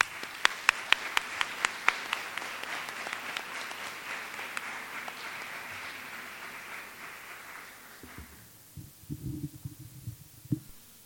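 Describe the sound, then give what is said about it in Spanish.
Applause from a conference audience welcoming a doctor to a mental health lecture: many dense claps, loud at first, then thinning and dying away before a few faint low sounds at the end. “Recibimos al Dr. Manuel Vilapriño con un fuerte aplauso.”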